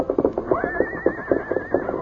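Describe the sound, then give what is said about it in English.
An agitated paint horse gives a long, quavering, high-pitched whinny that holds steady over a continuous rhythmic pulsing of low thuds. “Scout continued to whinny, rear, and paw the ground”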